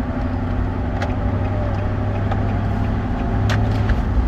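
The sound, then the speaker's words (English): Steady low engine and road rumble from a car driving around, a continuous, even drone that holds at the same level throughout, with no voices. “Sorry, I'm driving around.”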